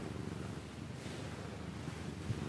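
A cat purrs while being petted, a faint, low, steady rumble that continues evenly throughout without pause.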